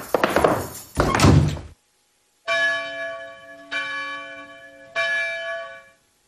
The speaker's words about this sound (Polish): Biły dzwony na godzinę 6.